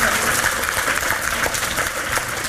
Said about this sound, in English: Round of applause.